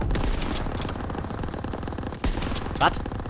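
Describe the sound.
Gunfire in a shooter video game: a rapid, steady rattle of shots runs throughout, with a couple of louder bursts near the end.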